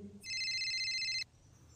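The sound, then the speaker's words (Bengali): A phone ringtone sounds early in the morning on a balcony, a single steady, bright electronic tone lasting about a second that cuts off abruptly, with no voices. “হঠাৎ ফোনটা বেজে ওঠে”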